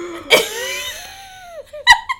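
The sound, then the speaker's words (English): A voice imitates someone sharply breathing in between kisses: a sudden breathy gasp, then a drawn-out squeaky tone that slides lower, followed by another quick, sharp intake near the end. “he would breathe in really sharply between kisses. Like, we would be, like, making out, and he'd pull back and be like,”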